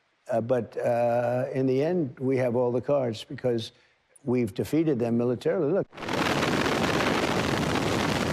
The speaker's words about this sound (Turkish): Ardından patlama sesleri yükseldi.